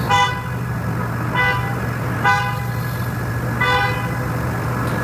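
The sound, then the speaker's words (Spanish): Empty Google robotaxis stalled in a San Francisco blackout honk at each other, several short bright car-horn toots repeating over a steady low engine hum. “Eran dos robotaxis de Google parados en el apagón de San Francisco que se estaban pitando mutuamente, estaban vacíos para moverse. Y estaban diciendo al otro que se apartara”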